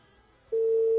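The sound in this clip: A phone line tone from an unanswered call being transferred: near silence for half a second, then a steady, unbroken mid-pitched tone that holds loud and level to the end.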